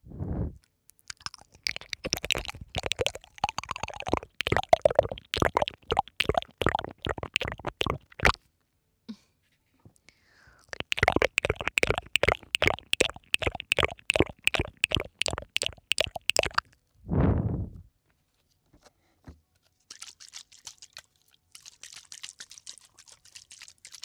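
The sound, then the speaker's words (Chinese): Water is sprayed near the ears in two long runs of many rapid spritzing bursts, followed by a low whoosh and then softer, hissy sprays. No one speaks. “我想给你的耳朵上喷水了。”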